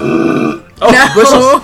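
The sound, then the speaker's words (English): A loud belch into a glass, low and drawn out with a hollow, muffled resonance, broken by a short gap midway before a second, throatier surge. “I love that you belch in a glass to try to soften the blow to our listeners.”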